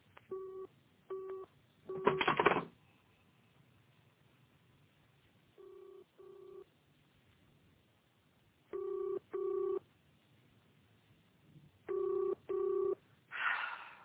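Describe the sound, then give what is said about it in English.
A telephone rings unanswered on the line, heard from the caller's end. Several faint double-pulse rings repeat with long gaps between them, and a couple of brief noise bursts occur between the rings. “It's ringing, but there's no answer.”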